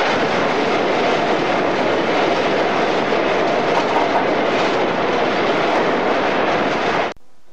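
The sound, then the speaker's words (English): A passenger train runs at about 30 mph through a narrow mainline tunnel, making a loud, steady, dense roar that holds for about seven seconds and then cuts off abruptly. “I'm just recording the noise as we run through the tunnel. We're doing about 30 miles an hour.”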